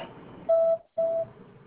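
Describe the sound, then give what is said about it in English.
Voicemail beep tone on a work phone line: two short, steady, mid-pitched electronic beeps separated by a brief silence, clear over a faint background hiss. “Leave me a message after the tone, and I'll return your call as soon as possible.”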